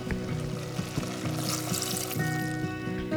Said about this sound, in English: After the carrot mixture has simmered for 5 minutes, then it's time for the water